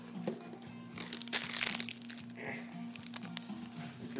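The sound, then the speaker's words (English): Crinkling, crackling peel of a stubborn sticker coming off, a faint, continuous run of small crunchy crackles for about four seconds over a steady low hum. “The sticker's being a pain in the ass.”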